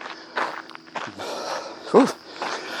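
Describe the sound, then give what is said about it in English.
Running footsteps of a person out on a flat trail, a few soft, uneven footfalls landing in quick succession, one slightly heavier thud near the middle. “Knock on wood, this run's been going pretty well so far.”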